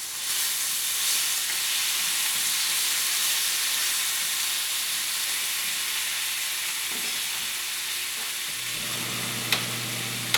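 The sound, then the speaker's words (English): Bacon sizzles and crackles as it fries in a pan, a steady dense hiss running the whole clip with no talk; a low hum joins near the end, with a couple of sharp clicks at the close. “If you're wondering what the sound is, that's the sound of bacon being cooked.”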